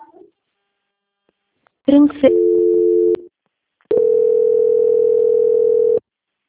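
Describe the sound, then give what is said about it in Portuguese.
A telephone line tone sounds while a call is put on hold for transfer to a quality-control department. A brief buzzy burst is followed by a steady, flat electronic tone lasting about a second. After a short gap, a longer tone at a similar pitch holds for about two seconds. “peço que aguarde em linha que vou transferir o contato para o controle de qualidade que dará continuidade à contratação.”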